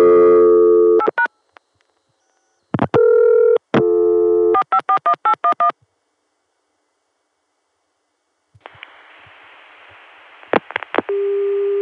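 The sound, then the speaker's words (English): Touch-tone keypad beeps dialed over a chained long-distance phone connection: steady tones and quick runs of short beeps separated by silences, then hissing line noise with a few more tones. “Let's hit a few touch tones just to see how this connection echoes and such, then hang up and start another one.”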